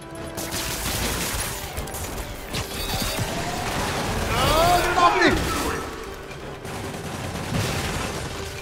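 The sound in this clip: Turret gunfire in a Spider-Man video game: many rapid bursts of shots over a busy backdrop, swelling to a louder, denser stretch near the middle before easing off.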